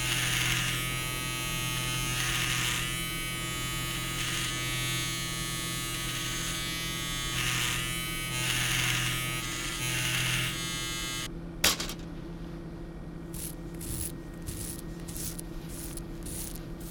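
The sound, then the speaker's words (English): An electric razor shaves the hair around a dead man's head before an autopsy. A steady, buzzing drone runs evenly for about eleven seconds, then cuts off with a sharp click, leaving only faint, scattered taps afterward. “I'm shaving the hair around his head in order to make a clean incision as we remove the skull cap.”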